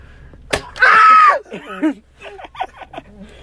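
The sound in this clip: A Nerf gun fires a single sharp snap, followed right away by a loud yell and then animated voices talking.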